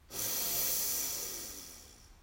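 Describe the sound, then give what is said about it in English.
A single long breath during a guided belly-breathing exercise: an airy hiss starts abruptly and then slowly fades over about two seconds, heard alone with no talking. “Breathe in, exhaling your belly. And out. Breathe in.”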